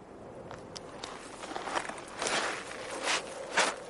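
A man's footsteps as he walks off, a series of soft, uneven scuffing steps over a steady background hiss.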